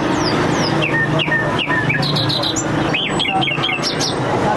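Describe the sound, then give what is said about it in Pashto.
Wild birds at a bird market in the middle of Kandahar city, where caught birds such as bulbuls, partridges and mynas are sold. Many quick, high chirps, whistles and squawks overlap against a steady, noisy background. “دا د کندهار ښار په منځ کې د وحشي مرغانو د پیر او پلور بازار دی.”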